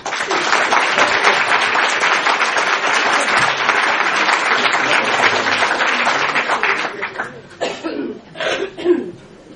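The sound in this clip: Audience applause welcoming a speaker at a psychic society meeting: dense, steady clapping from a crowd that thins out near the end into a few scattered claps, coughs and brief murmurs.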